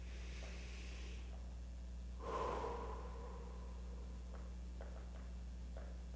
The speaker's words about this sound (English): Take a deep breath in.